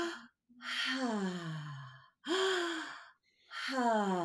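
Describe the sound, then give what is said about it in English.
Deep breathing with no pause between inhale and exhale, a full breath drawn in and then released out. Several long, voiced, sighing breaths follow one another with brief gaps, each sliding downward in pitch. “that's considered circular breathing. So there's no pause between the inhale and the exhale. It's like you just take this beautiful full breath in and then completely release it out”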